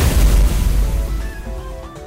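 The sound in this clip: Cannon fire in a video game: one deep, heavy boom that hits loud at once, then rumbles and slowly fades over about two seconds with a faint ringing tail.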